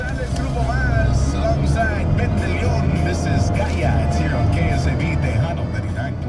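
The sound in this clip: Engine and road noise from a car driven around the city of Corpus Christi, Texas: a steady low rumble that continues throughout beneath people talking.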